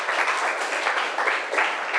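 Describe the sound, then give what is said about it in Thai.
Classroom applause as students clap for group 2 during a lesson: brisk, dense clapping from many hands that swells in a few surges. “ปรบมือให้กลุ่ม2ค่ะ”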